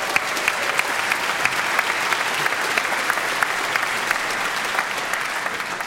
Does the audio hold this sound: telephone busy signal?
no